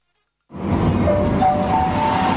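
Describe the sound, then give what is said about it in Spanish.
A metro train arrives at a station with a steady, loud rumbling roar that starts abruptly after a short silence. A faint thin whine runs through the roar. “Metro que llega.”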